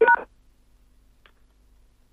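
A single short telephone keypad tone, loud and clear, followed by near silence with one faint brief blip.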